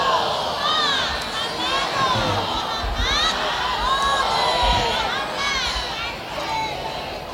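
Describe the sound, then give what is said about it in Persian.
A large gathering at an arbaeen commemoration for a martyred leader loudly recites salawat together, and many overlapping voices swell and hold at a strong, steady level. “خوشنودی دل مبارک حضرت صاحب، تعجیل در امر فرجشون، صلوات بلندی ختم بفرمایید.”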